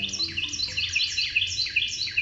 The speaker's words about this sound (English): When a Carolina wren tips back its head and sings, something remarkable happens.